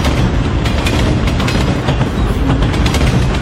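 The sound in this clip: A train rushing past a railway station platform, heard as a loud, continuous rumbling roar with rapid wheel clatter running throughout.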